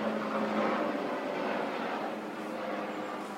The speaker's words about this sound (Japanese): 今ヘリコプターが来てるから